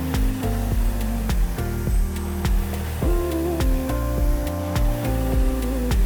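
The air-resistance flywheel of a RowErg rowing machine whirs in repeated surges during fast, powerful strokes, a steady whooshing rush over background music.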